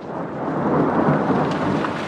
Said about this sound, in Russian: А утром начался дождь.